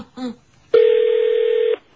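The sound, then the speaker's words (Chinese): Telephone dialing tones as someone calls a friend's home number: a brief tone followed by a single long, steady, loud tone lasting about a second, then silence. “不如打个电话去 Peter 屋企问下啦。”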